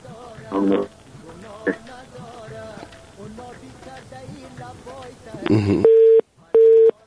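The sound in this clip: A telephone busy signal follows a dropped call: two short, steady, loud tone beeps with a gap between them come at the end, after a stretch of people talking.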